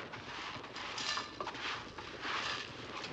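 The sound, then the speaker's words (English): A soft, continuous rustling clatter of scattered letter pieces being scooped up, with a few brighter clicks among the faint rattle. “I'll just scoop these letters up.”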